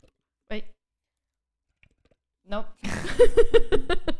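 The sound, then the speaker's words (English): Bubbles blown through a straw into a drink make a rapid, uneven train of burbling pops that runs to the end, following two brief, soft bits of speech. “So blow bubbles in your drink and see what happens.”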